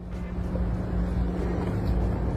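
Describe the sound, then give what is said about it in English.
A doggy daycare bus drives by with a low, steady engine rumble and a humming drone that hold fairly even throughout, with no voices over it. “This is a doggy daycare bus.”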